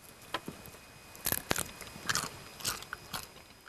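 Crisp biting and chewing of pasta with crunchy winter bamboo shoots and basil sauce: a series of sharp crunches at an uneven rhythm, clear over faint background noise.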